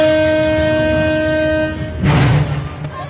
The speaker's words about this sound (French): Le train va vraiment partir là. Ça cavale sur le quai. Ah, il semblerait qu'il soit vraiment prêt à partir.